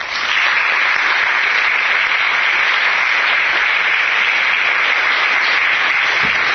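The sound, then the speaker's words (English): An audience applauds to welcome a speaker at an LSE lecture, a loud, dense, even patter of many clapping hands held steady throughout. “I hope you'll join me in giving Yannis a very warm welcome.”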